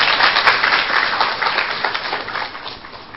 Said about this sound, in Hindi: तालियां तो बजाओ भाई,